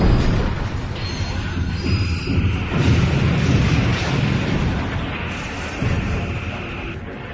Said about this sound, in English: Return fire all batteries. Full speed ahead.